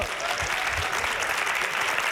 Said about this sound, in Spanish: Toma ya, un aplauso.